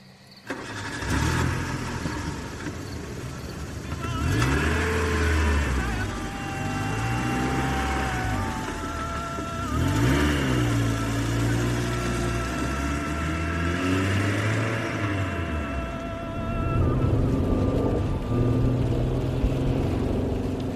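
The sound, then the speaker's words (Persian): A car accelerates along an empty road, its loud engine note climbing and dropping in repeated surges, with no talking. “گازشو گرفتم و دوباره زدم به دل جاده”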